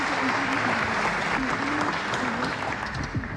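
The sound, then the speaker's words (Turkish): Sustained audience applause for a choir of vocal and saz performers and their conductor at a Turkish folk music program, a dense, steady wash of clapping that holds at an even loudness throughout. “koromuzu ve Şef Soner Özbilen'i gönülden alkışlıyoruz efendim.”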